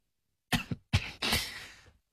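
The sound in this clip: A couple of coughs from a person, short throaty bursts with the last drawn out into a rough exhale, alone and moderately loud.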